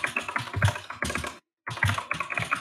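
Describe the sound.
Rapid clicking and typing on a computer keyboard while entering a web address: a dense run of sharp clacks that stops briefly, then resumes.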